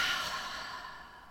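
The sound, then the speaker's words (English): A single deep exhale of breath during a guided breathing exercise, soft and airy, fading gradually over about a second. “take that deep breath in. And keep inhaling, expand, expand, expand, and exhale.”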